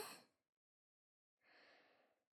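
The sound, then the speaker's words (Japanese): A slow, deep breath drawn in during a relaxation exercise. It is soft and airy, comes after the fading tail of a brief earlier breath and a short silence, and no one talks. “体の力を抜いて、ゆっくりと大きく深呼吸してみましょう。吸って、”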